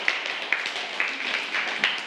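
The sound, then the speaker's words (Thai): Faint clapping from students in a classroom applauding a winning group, a soft, continuous patter with a few sharper claps standing out at regular spacing. “กลุ่มที่มีเงินเหลือมากที่สุดก็คือกลุ่มที่2ปรบมือให้กับกลุ่มที่2ด้วยค่ะ”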